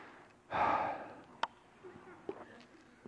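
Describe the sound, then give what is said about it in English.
A single deep breath, an airy rush of air lasting about half a second, followed by a few faint clicks and soft mouth sounds in otherwise quiet surroundings. “Let's take a deep breath real quick.”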